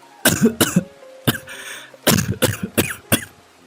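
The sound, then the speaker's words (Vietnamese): Harsh coughing from a gravely ill, dying old woman just before she vomits blood: many loud, rough coughs in uneven clusters separated by short gaps, with no talk. “bà Mão ho mấy tiếng rồi nôn ra máu.”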